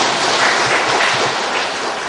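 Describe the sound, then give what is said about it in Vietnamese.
An audience claps at a comedy talk, giving a brief, dense burst of applause. It holds at an even, fairly loud level for about two seconds. “Một tràng pháo tay tặng cho quý vị.”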